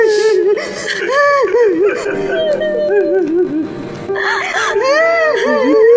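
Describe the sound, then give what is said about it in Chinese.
Emotional crying from a mother reunited with her son: a high, wavering, sobbing voice that rises and falls in long wails throughout, dipping briefly near the middle before swelling again. “来，这位妈妈不哭了啊”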